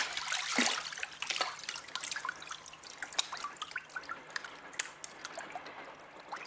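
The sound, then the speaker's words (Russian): A lid drops into water with a short splash near the start, followed by many scattered drips and a light trickle that continue to the end. “Последней в воду летит крышка.”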